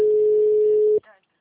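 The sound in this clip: A telephone line tone while a phone call is being placed, one steady pitched beep held loudly for about a second before cutting off, followed by a brief faint tail.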